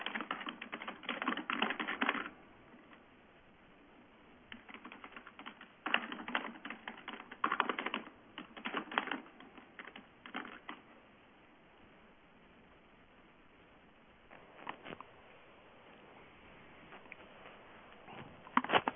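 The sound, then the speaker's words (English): Someone types on a computer keyboard while replying to emails. Bursts of rapid keystrokes are separated by quiet pauses, and the typing is faint and steady throughout. “Someone replying to a lot of emails? Yeah, sorry, it's me. Yeah. No problem. I know that sound.”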